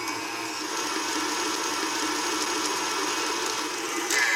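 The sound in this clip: Electric mixer beating Italian cream cake batter with about a cup of added coconut: a steady, high mechanical whir running continuously at even loudness, with no talking.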